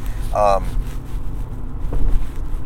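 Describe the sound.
Road noise inside a moving car: a steady low rumble and airy whoosh persist throughout, with a brief tonal chirp early on.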